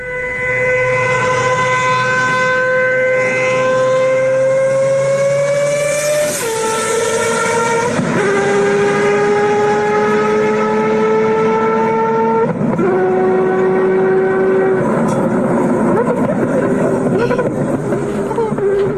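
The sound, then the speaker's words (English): A rotary-engine car revving hard, a loud, sustained, buzzing harmonic whine that climbs slowly in pitch and drops sharply at several gear changes, with no gaps between. “The downshift is insane. That is so cool. So that sounds like a bike. Yeah. That does sound like a bike. So it kind of sounds like a Formula One car as well. It's probably as loud. It's got to be a rotary. It is a rotary.”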